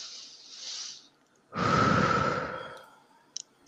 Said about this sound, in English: So taking that deep breath, I'll do it with you.